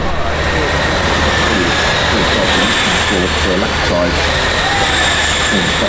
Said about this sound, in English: That's it. Three cars gone by.